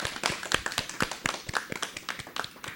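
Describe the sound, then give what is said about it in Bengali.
Small audience clapping for a young child who just played the flute, a faint, uneven patter of many claps that keeps a loose rhythm. “আমাদের ছোট্ট বন্ধু এঞ্জেলের জন্য এবারে জোরে একটা করতালি।”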